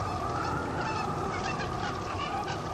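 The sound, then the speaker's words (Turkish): Quail birds calling as a flock in a dense, loud, unbroken chorus of overlapping cries. “Musa duasını bitirir bitirmez bıldırcın kuşu ve kudret helvası yağmaya başladı”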